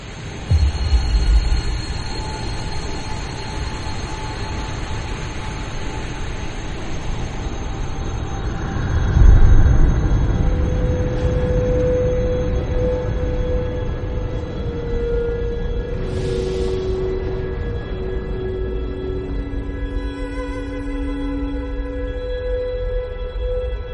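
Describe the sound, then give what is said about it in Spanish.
Radio emission from hydrogen gas in the Milky Way, turned into sound: a dense, rushing hiss with a low rumble and faint sustained tones gliding through it. The noise swells briefly near the middle and otherwise holds steady to the end. “En el pasado emitió esta radiación que escuchamos ahora. Estamos escuchando el fluido vital de nuestra galaxia.”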